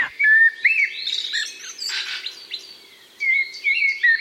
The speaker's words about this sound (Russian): А вот черный дрозд, например, он поет прям подолгу. Очень захотелось послушать.